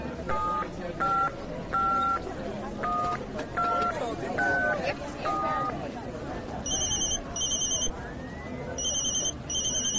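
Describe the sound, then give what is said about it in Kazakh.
An elderly man's mobile phone, one he had thought was broken, rings with bright electronic tone bursts: a quick repeating series of beeps, then a higher, shriller pattern of pulses near the end. “Я, ата, сіздің телефоныңыз не сап-сау бұзылмақты ғой, сайрап тұр, шақырып тұр.”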